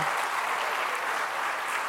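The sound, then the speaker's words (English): Steady audience applause after a trivia question at a school event, many hands clapping in a continuous, even wash of sound with no pauses. “Well done. Big round of applause.”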